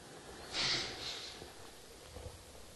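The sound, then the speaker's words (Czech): A long breath out during a guided breathing exercise: a strong, airy rush of exhaled air that swells quickly, then fades away gradually, soft and unaccompanied by talk. “A výdech. And exhale.”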